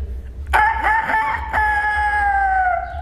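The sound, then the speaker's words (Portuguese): A man imitates a rooster's crow in a bathroom, giving one loud, long drawn-out cock-a-doodle-doo with a strained, harmonic tone that holds steady before sagging slightly in pitch at the end. “Então, já que não acreditaram que era eu mesmo que tava imitando galo.”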